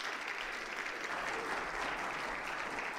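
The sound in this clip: A church audience claps to welcome a speaker to the front. The applause is even and moderately loud throughout, a steady wash of many hands with no clear voices.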